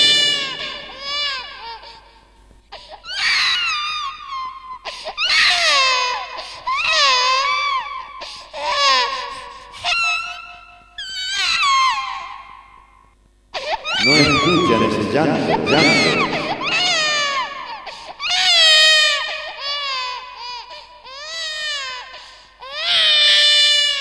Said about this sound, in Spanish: No escuchan ese llanto.